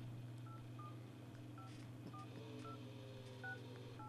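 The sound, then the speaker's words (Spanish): A telephone is dialed to place a call in a radio drama: a series of short, bright touch-tone beeps spaced irregularly, faint over a steady low hum. “Voy a hacer una llamada telefónica.”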